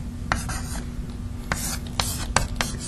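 Chalk or marker writing on a board during a maths lecture: a few short, scratchy strokes separated by brief pauses, set over a low, steady hum.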